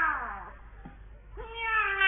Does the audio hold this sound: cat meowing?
yes